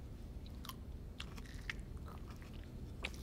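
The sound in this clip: A man bites his fingernails in a film scene, giving faint, crisp clicks and small snaps, a few scattered sharp ticks over a low, steady hum.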